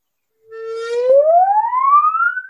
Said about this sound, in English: Now I'm going to bow and bend.